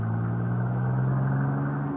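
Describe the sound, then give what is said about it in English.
Steady engine drone of a car on a highway, a low, even rumble with a constant hum that holds at the same level for the whole clip, with no talk. “Look out for that car. I see it. It's a white convertible, just like Grace's.”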